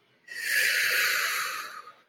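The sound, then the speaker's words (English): A deep breath in fills the lungs during a guided meditation. It is one long, steady airy inhale that swells quickly, holds evenly for about a second and a half, then tapers off, with no talking. “Join me in filling your lungs to their capacity.”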